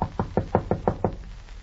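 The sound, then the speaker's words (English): Knocking on the door of a home, a quick, evenly spaced series of firm raps that then stops, with no voices. “who is that at the door? I go to see now”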